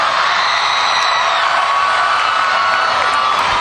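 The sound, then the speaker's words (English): Stadium crowd at a country music festival concert at LP Field in Nashville cheering as a singer walks on stage, a loud, continuous roar of whoops and shouts with sharp whistles cutting through. “When Jake Owen walked out, and the place stood up immediately and went crazy.”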